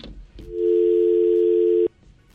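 Telephone line tone as a call is taken: one loud, steady electronic hum that holds for a little over a second, then cuts off abruptly, with quiet before and after.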